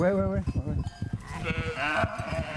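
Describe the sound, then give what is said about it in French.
Sheep bleat in a calm flock of ewes and lambs. Several harmonic bleats, some higher and some lower, overlap and follow one another closely at a moderate level. “Voilà, donc là, les brebis et les agneaux tranquillou au milieu de leurs copines.”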